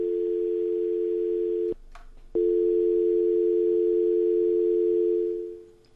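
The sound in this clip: A telephone line tone plays on a call that is not connecting: a steady, low, continuous hum holds, cuts out briefly, then returns and fades away at the end.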